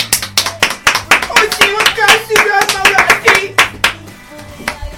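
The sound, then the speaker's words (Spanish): A group claps as a farewell for a departing colleague, loud quick irregular hand claps in a continuous flurry that thins and softens near the end. “Un aplauso para él de despedida.”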